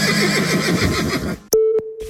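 A horse whinnies in an ad for a Balkan dressage riding championship: a loud, quavering neigh of over a second, followed by a sharp click and a steady electronic tone that briefly breaks off.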